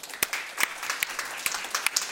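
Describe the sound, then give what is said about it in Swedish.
Sparse audience applause from a small group, heard as scattered, sharp individual claps at irregular intervals rather than a dense wash. “alla vi som tror att det är sant applåderar nu.”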